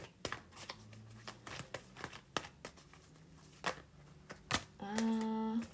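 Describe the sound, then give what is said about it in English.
Tarot cards are shuffled and drawn, producing a faint series of sharp snapping clicks and papery rustles at an uneven pace, with a brief voiced sound at the end. “Let me see if there's any more cards. Any more cards for Pisces?”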